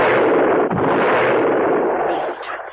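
Rifle gunfire, fired from the hip while running, comes as a dense, sustained roar of rapid shots with no separate reports, loud throughout before easing off at the very end.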